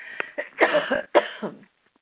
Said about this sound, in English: I'm going to have to cough. Excuse me.